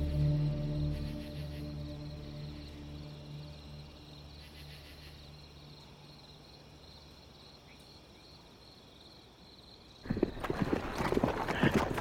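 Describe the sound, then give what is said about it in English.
Horses galloping as a mounted column rides hard toward a farm at night in 1865. Crickets and a low hum fill most of the stretch, then loud, rapid hoofbeats burst in near the end. “They threw Willie Jett on his horse and rushed toward the Garrett farm.”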